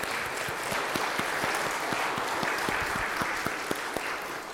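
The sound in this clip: Applause welcoming guests in Hoyleton: many hands clapping in a steady, dense patter throughout, with no voices over it.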